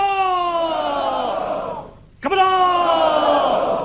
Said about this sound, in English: That's the sound of Mr. Abe cheering Let's Go Tokyo when first elected as Prime Minister in 2006.